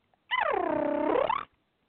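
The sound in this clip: A human voice imitates a Yorkie's purr-like, attention-seeking sound: a single rolling trill about a second long, its pitch dipping and then rising again at the end, heard alone.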